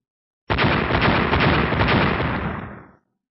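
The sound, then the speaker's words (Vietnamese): Loud, earth-shaking explosions roar continuously in a single sustained blast, the collisions of a being blocked while trying to enter the thirtieth heaven. The dense rumbling noise holds steady for about two and a half seconds, then fades away. “Liên tục vang tiếng nổ kinh thiên động địa”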